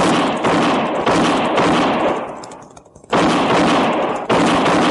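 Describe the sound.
Gunfire aimed at riders coming up a road in a frontier western scene: dense, loud bursts of rapid shots that thin out briefly, then resume in heavy volleys.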